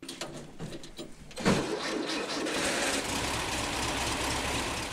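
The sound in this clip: A faint engine of a 1930s prototype car built by engineer Eugen Friedrich Meyer, with light uneven ticking at first, then a steady running drone from about a second and a half on.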